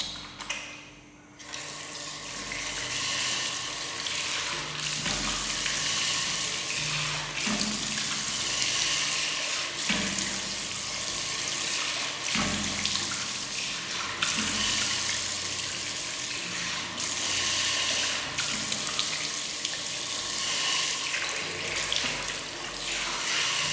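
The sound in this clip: Water runs and splashes steadily for nearly the whole stretch as it is strained off during food preparation. After a brief quiet start, it becomes a continuous loud rushing pour.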